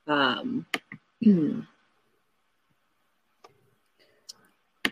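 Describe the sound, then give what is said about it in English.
Several sharp, faint mouse clicks sound one at a time after a burst of talk at the start, with short silences between them, as someone clicks on a link that will not open. “I'm like clicking on the link, but it's not clicking on the link.”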